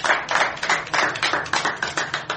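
An audience claps in a steady, regular rhythm. The many quick, evenly paced beats hold a moderate loudness throughout.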